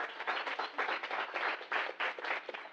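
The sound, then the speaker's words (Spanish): An audience applauds at the closing event of a children's workshop. Steady, even clapping from many hands continues throughout at moderate volume, with no voices over it. “Un aplauso para ella.”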